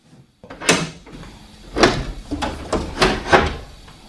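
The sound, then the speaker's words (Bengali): A door being opened, heard as several sharp knocks and rattles spread over a few seconds, each a loud, bright burst with a short rumbling tail, and quiet gaps between them. “দরজা খোলো।”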